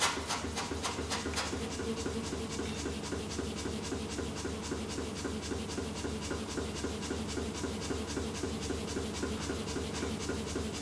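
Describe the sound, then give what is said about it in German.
A blacksmith notches an iron bar for knife-making with a fast, steady, rasping metallic rhythm that stays dense and unbroken from start to finish, with no voices. “Er kerbt das Eisen mehrfach ein. An den Spalten wird er das Eisen falten.”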